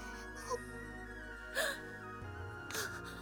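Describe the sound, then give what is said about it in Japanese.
A girl crying in a few short, whimpering sobs that break out separately over a soft, sustained musical background. “堪忍な、泣くくらいまずかったんか。”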